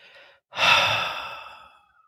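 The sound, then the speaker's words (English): A deep, breathy exhale released after a held breath in a guided breathing exercise: one long airy rush that starts strong and gradually fades over about a second and a half, preceded by a faint short breath. “And at the very top, I want you to hold it. Hold it just a little longer and then exhale.”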